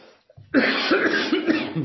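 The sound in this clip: A cough from someone with a tickle in the throat: after a short quiet pause comes a loud, rough, throaty burst that drags on with raspy throat-clearing.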